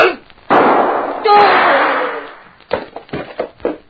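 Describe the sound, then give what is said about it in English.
A single loud gunshot from a man firing, with a long ringing decay that fades over a couple of seconds, followed by voices talking. “Very stupid of any man to try shooting at a man who is behind him.”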